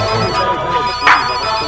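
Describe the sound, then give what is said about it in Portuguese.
A mobile phone ringtone plays a loud, steady electronic melody of bright repeating tones, with no talk over it. “Todo celular tá tocando.”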